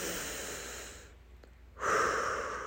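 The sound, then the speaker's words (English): Slow, deep breaths taken during a calming exercise, with a hand resting on the chest: soft, airy rushes of breath with a short quiet pause in the middle, then a fuller, louder breath. “I'm going to put my hand on my heart and breathe. Nice deep breaths.”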